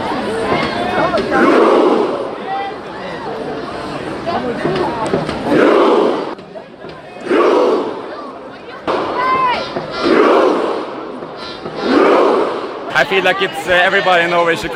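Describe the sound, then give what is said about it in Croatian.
Thousands of football fans roar in unison before the palace in Oslo, celebrating Norway's national team after the World Cup as the crown prince beats a drum. Loud massed shouts surge in repeated bursts, punctuated by sharp hits. “Norveški prijestolonasljednik udarao je u bubanj dok su hiljade navijača kao i igrači i stručni štab veslali pred palatom. Poslušajmo kako je to zvučalo”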